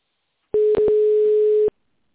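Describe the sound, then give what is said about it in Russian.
Telephone line tone heard during dialing of a phone number: a single steady mid-pitched beep lasting about a second, with a brief dropout near its start, alone on a quiet line. “В тоновом режиме наберите нужный номер абонента или дождитесь ответа секретаря.”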